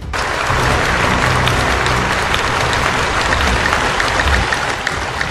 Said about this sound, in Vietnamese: Đám đông vỗ tay.